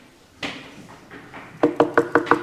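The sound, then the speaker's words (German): Knocking on an inn's wooden door: a few soft, scattered knocks, then a quick, even run of five louder hollow raps. “So klopfte Josef ein letztes Mal ans Wirtshaus”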